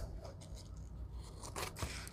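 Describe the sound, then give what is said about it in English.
Scissors trim paper for a 6x6 inch craft paper pad, giving a few soft, crisp snips and light scraping against faint background noise. “Now let's trim. Let's trim them in.”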